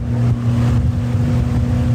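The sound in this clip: Steady, loud engine drone of a rescue motorboat driven fast on the Danube, a low, throbbing hum that holds an even level throughout with no voices.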